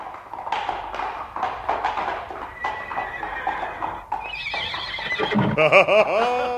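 A horse whinnies loudly near the end in a long, quavering call. Before it comes a stretch of rhythmic hoofbeats from riding at speed.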